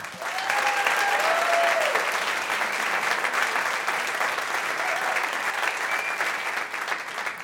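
Dense applause from an audience welcoming a performer, a loud, steady roar of clapping heard alone that eases slightly toward the end.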